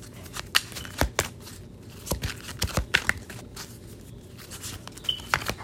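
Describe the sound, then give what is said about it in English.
Playing cards being shuffled and pulled for a card reading, with a few crisp snaps and irregular papery rustles and flicks, fairly soft and with no talk over them. “Let's pull one more card.”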